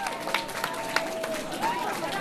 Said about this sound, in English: The travelers were greeted by a cheering crowd holding welcome signs and flowers. The crowd also applauded the crew from Lufthansa Airlines.